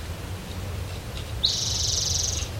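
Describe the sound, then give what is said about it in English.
An orange-crowned warbler sings one high, rapid trill lasting about a second, clear and alone over a faint low background rumble. “Orange Crown Warbler singing.”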